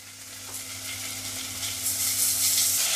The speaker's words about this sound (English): Going to add the onions in first, just to caramelize them a little bit. Then we're going to add in the mince.